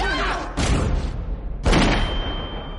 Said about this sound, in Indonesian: Suara tembakan pun terdengar.